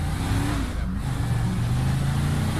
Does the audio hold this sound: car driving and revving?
yes